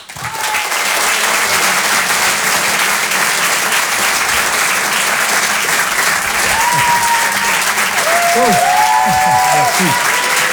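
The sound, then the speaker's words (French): Audience applause for a comedian at a comedy club in Paris: dense, loud clapping that holds steady for about ten seconds, with whistles and cheering voices rising near the end. “On peut l'applaudir très très fort, Antoine Donneau.”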